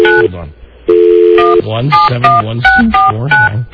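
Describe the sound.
Telephone keypad tones dial a number as a rapid series of short, clear electronic beeps at shifting pitches, following a brief exchange of talk and overlapping voices.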